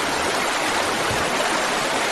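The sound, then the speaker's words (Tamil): Water flows into a vegetable garden bed in a steady, unbroken hiss and gush, like a small stream running continuously at an even level. “இந்த ஒரே ஒரு பாத்திக்கு மட்டும் தண்ணி பாய்ச்சிட்டு”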